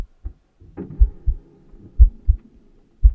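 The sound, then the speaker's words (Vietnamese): A heartbeat thumps in the chest with low, muffled thuds, some in lub-dub pairs, in a slow, uneven rhythm over a faint hum. “Thậm chí An Hùng còn mơ hồ nghe thấy cả nhịp tim của mình đập thình thịch ở trong lồng ngực.”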